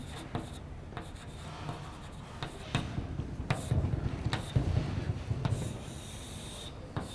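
Writing out a phase modulation formula during a lecture: continuous soft scratching and rubbing strokes with scattered sharper taps, growing slightly busier midway, with no talk.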